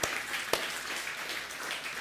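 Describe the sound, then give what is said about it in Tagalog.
A church audience applauds, giving a steady, fairly soft wash of many hands clapping, with a couple of sharper claps near the start. “Come on, palakpakan po natin yung Panginoon. Come on.”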